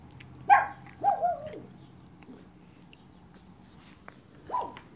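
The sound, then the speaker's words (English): A dog barks a few times: one sharp bark, then a quick pair, then a pause before a last bark. The barks are loud and short, with a low steady hum underneath. “who are you barking at?”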